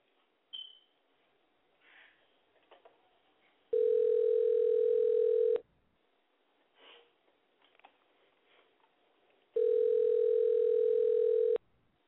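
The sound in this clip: Ringback tone on an outgoing call to someone who just hung up: two long, steady, buzzy tones about two seconds each, separated by a quiet gap with faint rustles and sniffs.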